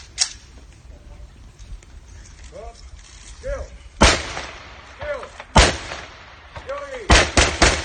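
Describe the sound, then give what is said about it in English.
A volley of gunshots is fired in a street in honour of a dead INLA member. Several loud, sharp cracks come at irregular intervals, a few closely spaced near the end, with faint voices between them. “here is the sound of a volley of shots being fired in honour of a dead INLA member.”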